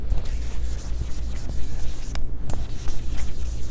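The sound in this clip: An eraser rubs across a board as a drawn diagram is wiped away, making a dry, uneven scrubbing swish in quick irregular strokes.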